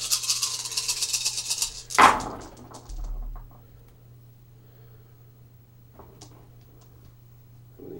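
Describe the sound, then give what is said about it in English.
Dice rolled for a Shogun board game from the Game Master Series: a couple of seconds of bright rattling, then a sharp clatter as they land, followed by a low steady hum. “I'm rolling dice for here.”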